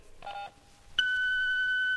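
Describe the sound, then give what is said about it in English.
An answering machine's message beep: a brief cluster of dial-like tones, then a single long, steady, high beep that holds evenly for about a second before cutting off. “Unfortunately, I can't get to the phone. Leave us a message after the tone”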